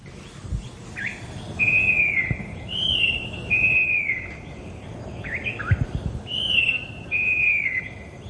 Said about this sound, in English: The loud song throughout the cuts coming from the falcated wren babbler,